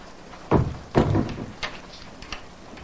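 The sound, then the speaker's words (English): A bedroom door being closed, heard as two clear thuds about half a second apart, followed by a couple of fainter knocks as it settles. “She closes the door and walks off.”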